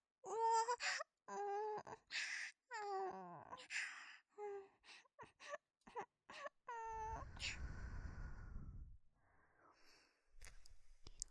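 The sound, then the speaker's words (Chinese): A woman cries in broken bursts of high, wavering wails and whimpers, with gasping intakes of breath between sobs. “好了，宝宝，别哭了。这种欺负你的人，干嘛要为他哭呢？”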